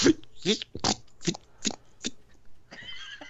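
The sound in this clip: A voice imitates corduroy fabric rubbing, like a corduroy jacket, with several rhythmic, buzzy swishing bursts followed by a short higher tone.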